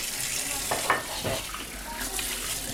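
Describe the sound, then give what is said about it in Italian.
Water runs as cups, plates and glasses are washed, a low steady wash with a few soft clattering touches scattered through it. “Ma cosa fai adesso? Pulisco le tazze, piatti, bicchieri.”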